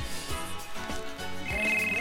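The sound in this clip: A telephone bell rings for an incoming call to a call-in program, sounding in repeated bursts over a steady tonal background.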